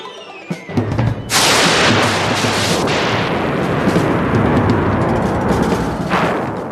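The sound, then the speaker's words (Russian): Rockets packed inside a wooden horse explode after being set alight: a few faint pops, then a sudden loud roaring blast with crackling that continues at high intensity to the end. “Наконец они поднесли огонь к хвосту деревянного коня, набитого гремучими ракетами.”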